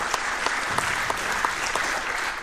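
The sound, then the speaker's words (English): Audience applause after thanks to a conference video team, dense and steady throughout with scattered sharper claps standing out, no voices. “Big applause.”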